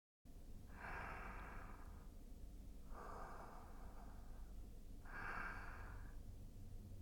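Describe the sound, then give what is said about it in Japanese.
Three slow, soft inhales through the nose, each a breathy rush of air lasting about a second, evenly spaced with quiet pauses between them. “鼻からゆっくりと吸って、”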